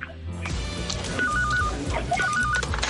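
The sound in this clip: A mobile phone rings in two short bursts of high, warbling trill tones over a steady musical backing.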